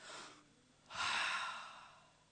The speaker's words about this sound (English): So I want you to take a deep breath.